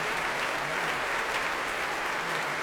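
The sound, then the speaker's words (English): Applause from a Proms audience for the Oslo Philharmonic and conductor Petrenko, with the orchestra standing: dense, steady clapping from many hands that stays even and unbroken for the whole stretch. “cheering, hands in the air as they clap. They're getting a really warm reception here tonight.”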